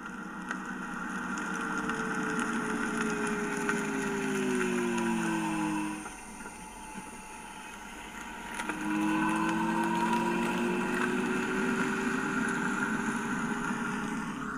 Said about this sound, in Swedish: Elbilar kan låta lite olika. Vi ska lyssna på ett som är ganska typiskt.